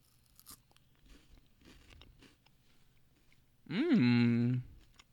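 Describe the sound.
Biting into and chewing a pumpkin Kit Kat gives faint, scattered crunches, followed by a loud, steady hummed voice sound.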